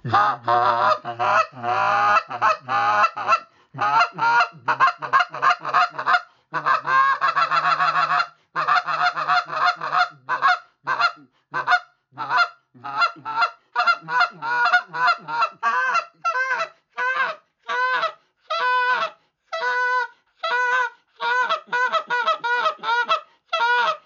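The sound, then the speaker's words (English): A hunter's goose call imitates the ground noise of feeding honkers during an early-September Canada goose hunt in Canada: many short, raspy honks and clucks in a steady, chattering stream, dense at first and then more spaced out. “I'm just doing light finesse stuff, just giving that goose noise there that I call confidence ground noise.”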